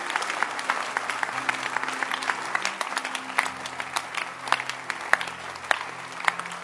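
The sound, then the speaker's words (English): An audience clapping hands together to close a church service: many dense, overlapping claps in a steady, continuous stream throughout. “Give the Lord a hand clap as we close the service.”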